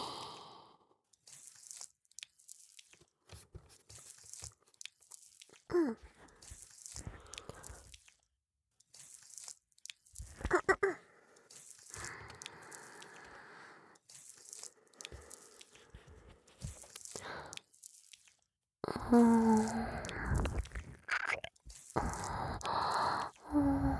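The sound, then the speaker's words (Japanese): Wet licking and slurping mouth sounds for ear-licking ASMR, mixed with soft sighs. Irregular smacking and squishing bursts come and go, growing louder and denser near the end. “お詫びに愛情を込めてお耳舐めさせていただきますから許してくださーい。”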